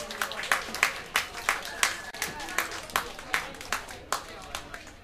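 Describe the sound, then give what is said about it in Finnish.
Audience applause at a club night in a bar in Turku, Finland: many hands clapping together with regular sharp peaks in a steady run that carries through the whole stretch. “Annetaanpa aplodeja.”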